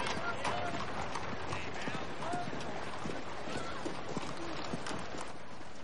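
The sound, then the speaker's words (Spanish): A horse-drawn carriage pulls away from a house with a white, vine-covered facade; hooves clip-clop steadily within a dense, continuous wash of noise. “Un carruaje se aleja de una casa de fachada blanca cubierta de enredaderas.”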